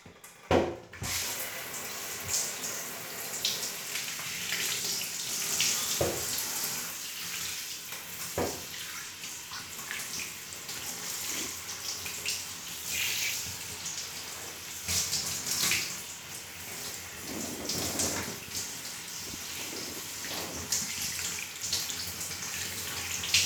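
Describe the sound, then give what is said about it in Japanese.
Running water rinses conditioner out of hair: a continuous, fairly soft splashing and hissing stream that shifts and surges unevenly as the water flows over the head, with no talking. “リンス、流しちゃうね。”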